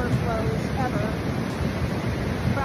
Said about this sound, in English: TV host Ellen DeGeneres shared this video of an overflowing creek near her home there. We were having unprecedented rain. This creek next to our house